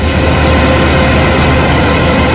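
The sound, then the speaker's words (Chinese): A combine harvester works at full power harvesting corn in a field in Datong, Shanxi, with transport vehicles following behind; a loud, steady, unbroken engine roar fills the whole clip, with no voices. “走进山西大同市云冈区西韩岭乡泰善村，收割机正开足马力作业，转运车辆紧随其后”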